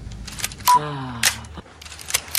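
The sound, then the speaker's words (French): A camera being loaded for a photo session gives a few sharp mechanical clicks, with a brief whirring, motor-like tone between the first two snaps and fainter ticks afterward. “Anna, sa mère, charge son appareil comme une arme qu'on charge.”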